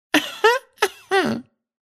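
A woman clears her throat before reading aloud with four short, rough, voiced bursts in quick succession, fairly loud and alone, with no talk around them.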